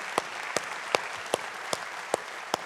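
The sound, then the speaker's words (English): A church audience claps in unison, seven sharp, evenly spaced claps standing out over a constant wash of background noise. “Come on, church, let's put our hands together.”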